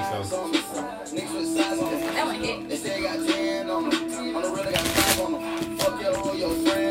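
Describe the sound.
Playing cards shuffled and dealt during a card game with a 52-card deck, a steady run of soft riffling and papery taps with a denser burst near the end, under voices and background tones.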